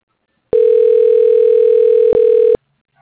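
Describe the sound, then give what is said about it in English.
A telephone dial tone plays alone as a single loud, steady pitch for about two seconds, broken by one very brief gap near the end. “Dialing.”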